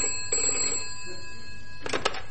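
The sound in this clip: A telephone bell rings in two short bursts separated by a pause, each a bright, harmonically rich trill, with steady tones holding underneath.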